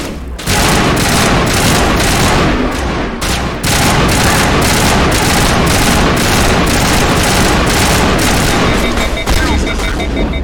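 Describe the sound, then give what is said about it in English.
Sustained, heavy gunfire from a gun in a video game, many rapid shots blending into a dense, loud roar that runs almost without pause, broken only by a brief gap partway through. “I'm actually impressed that this gun feels different. I immediately notice that I'm firing a different gun.”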